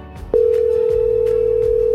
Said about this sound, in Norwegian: Nå skal vi ringe til en av de som har meldt seg på. En telefon til Mjøndalen.